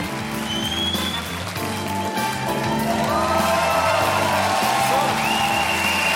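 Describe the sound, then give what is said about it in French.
An audience cheers, whoops and makes noise for a comedian taking the stage at a Montreux comedy show, a steady, loud wash of crowd noise sustained throughout. “Préparez-vous maintenant à accueillir notre prochain artiste et faites du bruit où que vous soyez pour Guillermo Guise.”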